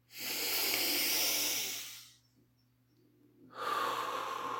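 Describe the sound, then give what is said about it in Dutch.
A deep breath in and out: two long, loud, breathy rushes of air separated by a quiet pause, with a faint steady low hum underneath. “En haal eens diep adem en blaas weer uit.”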